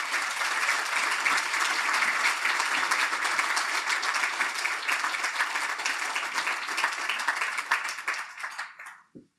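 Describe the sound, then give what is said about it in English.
Audience applause welcoming the speaker to the lectern at the Lowy Institute media lecture: dense, steady clapping from many hands, sustained at an even level before quickly fading out at the end. “Ladies and gentlemen, please welcome Brett to the lectern.”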